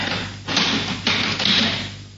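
Door being locked with a key, heard as a few dull taps and thuds with a sharp clack, spaced apart over a steady low hum.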